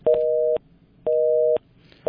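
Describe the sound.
A telephone busy tone sounds after a call is cut off, a steady two-pitch beep pulsing on and off in an even rhythm, with two full beeps and the start of a third.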